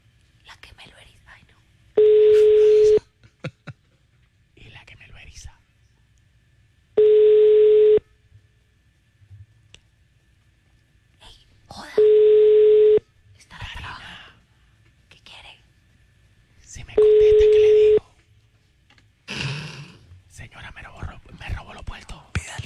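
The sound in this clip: Phone call ringing tones as the call reaches a voicemail system: four identical steady beeps about a second long, evenly spaced roughly five seconds apart, with faint voices murmuring between them.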